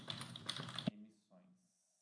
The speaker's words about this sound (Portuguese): Vou até escrever isso daqui, caso eu esqueça depois.